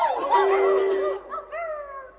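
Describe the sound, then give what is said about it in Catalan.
A dog's barks come as two drawn-out, howl-like calls with clear tonal pitch, the first longer and fuller, the second shorter and thinner, with no other sound around them. “Veiem les dues bordades de gos.”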